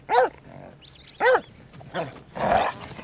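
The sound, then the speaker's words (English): Dog barking and growling in several gruff, loud bursts, with a couple of higher yelping sounds between them. No one speaks over the barks. “Control that dog as well. Get that dog, get the dog off of it.”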